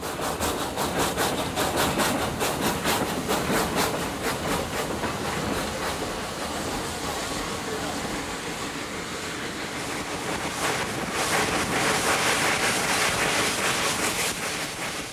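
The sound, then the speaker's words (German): A small locomotive hauls a train up a steep mountain railway on a gradient of about 20 percent, toward the tree line, with a continuous rhythmic clatter and hissing rumble that holds steady and swells slightly near the end. “~20% Steigung, also in der Bahner Sprache erstaunliche 200 Promille, schafft die kleine Lok. Langsam lässt der Zug die Baumgrenze hinter sich.”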